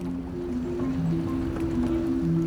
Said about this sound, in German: Lene Schneider-Keiner steht an Deck eines Passagierdampfers. Tief unten das Wummern der Motoren.